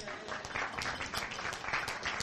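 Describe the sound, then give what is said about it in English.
Audience members at a science cafe applaud themselves with a soft, even wash of clapping that holds steady and fairly quiet for the whole two seconds. “some of you have been coming to them for that whole time, so give yourselves a hand.”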